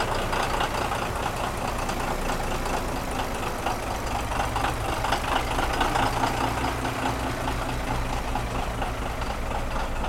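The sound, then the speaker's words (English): Caterpillar diesel engine running in a boat's engine room while the vessel is not underway: a loud, steady, low droning rumble with a constant mechanical knock, unbroken and alone without any talk. “So here's a little of what it sounds like in the engine room of the Tourist 2. It's the Caterpillar doing what it does best.”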